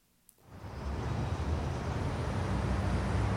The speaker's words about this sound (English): I'm going to take this car right here.